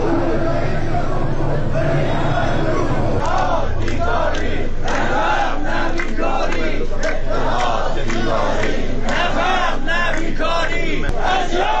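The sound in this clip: A crowd of protesters at a street rally in Iran chanting together, many voices shouting in loud, rhythmic bursts that repeat steadily over an unbroken roar of the gathering.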